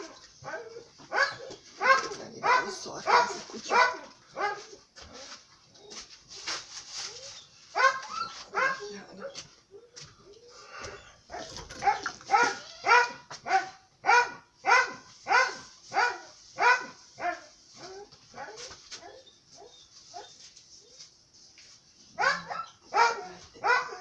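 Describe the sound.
A dog barks over and over, giving many sharp, fairly faint barks in uneven bursts separated by short pauses, with a few softer yips mixed in.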